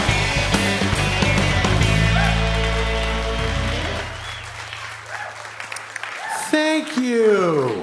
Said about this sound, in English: I think the perfect description of my career was the smattering of applause that greeted each of my individual credits.